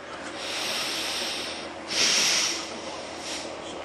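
Breathing through a blocked nose: a few long, airy, hissing breaths with a snuffly edge, the loudest one coming in the middle, with no talk over them.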